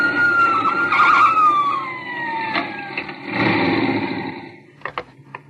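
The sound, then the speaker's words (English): A car engine runs just after being started, a motor prone to overheating and stalling. Its loud tonal whine slides downward in pitch, surges again, then a few sharp clicks come near the end. “Having trouble with my motor, officer. Keeps heating up on me and stalling. Well, you got it running now for if it's overheated. Just started it up.”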